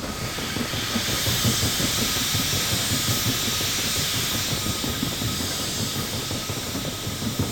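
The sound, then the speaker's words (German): Steam engine of a steamship wheezing in fog: a steady, loud hiss over a rapid, rhythmic low chugging that runs unbroken throughout, with no voices. “In diesem Schweigen hatte das Röcheln des Dampfers etwas Beunruhigendes und Klagendes.”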